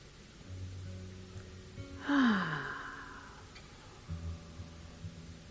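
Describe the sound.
A single deep, cleansing breath is let out in one audible sigh-like exhale that swells and then fades, over a low, steady background hum.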